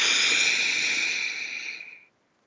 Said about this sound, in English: let's take a breath. Breathe in through your nose,